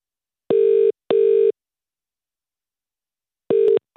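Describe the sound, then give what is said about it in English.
Telephone ringback tone on an outgoing call to a university hotline: a pair of steady, buzzing mid-pitched tones, then a long silence before another short burst of the same tone. No voices. “Okay, so let's give them a call.”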